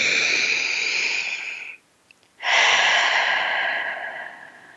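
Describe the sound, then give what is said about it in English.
Two long, loud, deep breaths, each a steady airy rush, are separated by a brief silent pause. The second breath is the longer one and fades out gradually at the end. “Choose to take a breath, a deep breath.”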